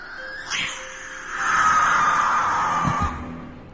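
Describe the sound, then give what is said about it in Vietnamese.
A barn owl gives a brief flutter of flapping wings, then a long, harsh, rasping screech that holds steady and loud for more than a second before cutting off. “Con cú lợn không biết đậu ở đây được bao lâu. Sau đó, nó nhìn nghiêng nghiêng cái đầu, rồi đập cánh phành phạch, kêu lên vang vọng.”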